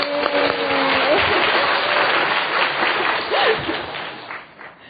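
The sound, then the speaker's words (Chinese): A church audience applauding during a bilingual service, a sustained, even roar of clapping with a brief voice at the start, holding steady before tapering off near the end. “我们给他鼓掌啊。”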